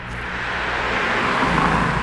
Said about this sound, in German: Spärlich rollt der Verkehr über die Landstraße in Jonska, einem Örtchen in der Nähe von Krakau.